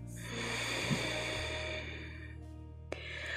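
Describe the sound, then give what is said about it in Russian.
Slow, deep breathing during a meditation exercise: a long, soft, airy hiss of breath in and out, quiet and unhurried, ending with a brief faint click. “И сделайте глубокий вдох. Сделайте полный выдох.”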